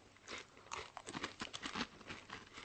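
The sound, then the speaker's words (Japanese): Someone eats and chews food: faint, crisp crunching bites come in a quick, irregular run of soft bursts, with no talk over them. “食うか喋るかどっちかしろ”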